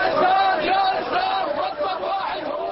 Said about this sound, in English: In downtown Baghdad, a crowd of protesters at a recent demonstration chanted slogans calling for the execution of Saddam Hussein.